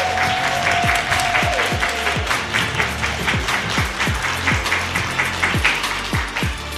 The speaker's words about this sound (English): We are in person with a live audience at Literary Cleveland's 2023 Incubator Writing Conference. Give it up for Elissa Washuta for being our guest.